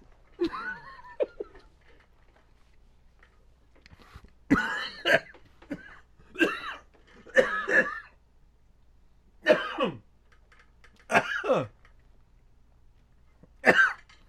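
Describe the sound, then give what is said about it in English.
Someone coughs and chokes on a ham sandwich caught in the throat: a long series of harsh, sputtering coughs and gasps comes in uneven bursts with short pauses between them and grows more frequent toward the middle. “Wait, almost died. Ham sandwich in the throat.”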